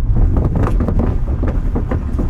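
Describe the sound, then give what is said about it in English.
A car rolls over the shifting wooden planks of Old Powder Point Bridge with a dense, steady low rumble broken by irregular knocks and clunks throughout. “There's nothing like the sound of planks shifting as you drive over Old Powder Point Bridge.”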